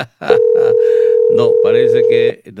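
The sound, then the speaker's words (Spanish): A steady telephone tone of an outgoing call waiting to be answered hums at a constant mid pitch for about two seconds while people talk over it. “Le estamos llamando, pero no tenemos la respuesta por parte de él.”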